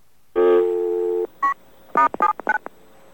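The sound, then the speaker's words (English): Telephone dialing tones come from a voice-activated dialer. A sustained tone is followed by a single short beep and then a quick, irregular run of brief tones. “And then we're going to try saying WBAI, see if it dials BAI or WBAI, depending on which one it feels that we've said.”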